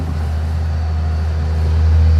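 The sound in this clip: A forest harvester drives across a field, its heavy engine giving a steady, loud, low droning rumble that grows slightly louder toward the end, with no voices.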